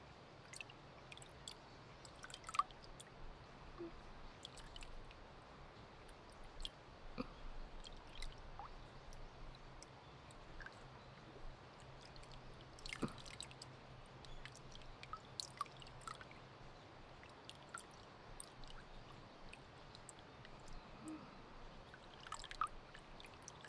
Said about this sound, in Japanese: マッサージが終了しましたので、美容液を塗っておいたこちらの手を洗い流していきます。